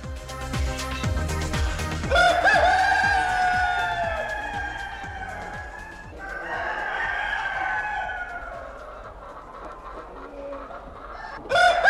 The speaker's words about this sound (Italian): e questa volta il gallo lo mando.